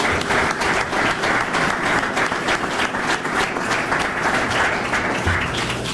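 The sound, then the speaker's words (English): Audience applause at a Detroit Pistons press event welcoming the team's newest basketball player: a steady, loud wash of many hands clapping that holds at an even level throughout. “Let's give them all a hand and a welcome.”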